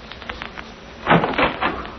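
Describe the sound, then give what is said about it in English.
A door being opened: a few brief clunks and rattling knocks come in the second half, moderate in loudness after faint, scattered ticks. “This is the door. I'll open it and you step in, Miss Wright.”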